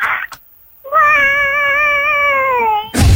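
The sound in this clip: A person imitates a cat meowing: one long, loud, drawn-out wavering tone of about two seconds, with brief noises just before and after.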